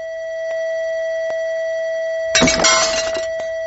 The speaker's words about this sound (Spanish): Conociendo la frecuencia de la copa y con un generador de ondas y unos buenos altavoces, la verdad es que es fácil hacerlo. Y conseguimos este efecto.